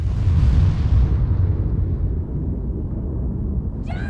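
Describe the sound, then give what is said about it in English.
A plane explodes in a deep, rumbling blast that starts loud and slowly decays over several seconds into a fading low roar. “The plane explodes.”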